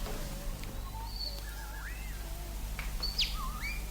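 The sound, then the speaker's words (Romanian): Starlings sing in a loose jumble of faint whistles, upward and downward slurs and brief chirps scattered over a steady low hum, with no talk. “Cântă graurii.”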